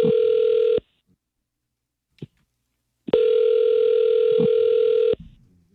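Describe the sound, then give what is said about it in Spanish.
Ringback tone of an outgoing telephone call: two long, steady buzzing rings about two seconds each, separated by a silent gap with a brief faint click, the second ring ending in a short rustle. “¿Le puedo llamar? Ya está sonando.”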